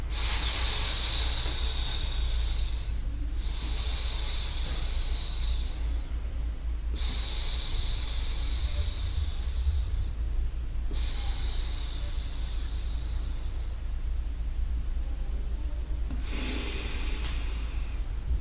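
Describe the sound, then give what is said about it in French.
Slow exhalations during a breathing exercise, done in time with walking steps: a few long, airy hissing breaths separated by short pauses, over a steady low hum. “quand l'énergie est en bas, on prend l'inspiration, on fait un nouveau pas, et on expire. Mais on peut expirer.”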